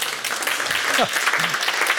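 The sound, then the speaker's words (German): An audience applauds at the close of a summer orchestra concert. Dense, steady clapping fills the whole clip at an even level, with a brief voice or cheer rising over it midway. “Vielen Dank, der Applaus für Sie.”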